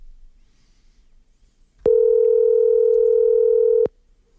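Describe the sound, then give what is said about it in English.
Telephone dial tone when placing a call: a loud, steady electronic hum held for about two seconds. It starts and stops abruptly over a faint background, and no one speaks. “I'm going to make a phone call.”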